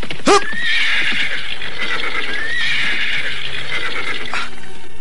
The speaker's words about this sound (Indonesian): Mengapa tiba-tiba saja Raden menghentikan kuda?